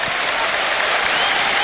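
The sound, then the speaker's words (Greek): Applause from Olympiacos fans at a basketball final, cheering a player's second free-throw attempt after a missed first shot; dense, steady clapping that stays fairly loud for the whole short stretch. “67-68, η πρώτη βολή έξω, χειροκρότημα από τους φίλους του Ολυμπιακού για τη δεύτερη προσπάθεια του Σάσα Μπεζέκοφ.”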